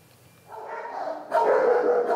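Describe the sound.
Dogs bark in an animal shelter housing dogs that have bitten, a loud, continuous chorus that starts after a quiet opening and swells louder again partway through.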